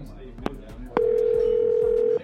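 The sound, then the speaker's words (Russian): A telephone line tone hums steadily for about a second after two sharp clicks, as a call is placed, over a faint background. “Они звонят Эдди.”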